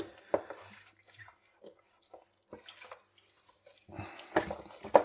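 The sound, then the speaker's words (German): Water splashes and plastic clatters as a plastic cake box is washed in a sink. The sounds are sporadic and quiet with short pauses between them, and they grow busier and louder toward the end. “Ich finde, Kuchenboxen sind auch eher schwieriger abzuwaschen, weil die halt meistens größer sind als das Waschbecken oder das Spülbecken, sagt man.”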